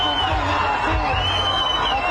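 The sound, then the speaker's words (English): Crowd cheering as the first hostages are released by Hamas, a dense mass of shouting and whooping voices that holds steady for about two seconds. “Cheers when the first two hostages were released by Hamas today.”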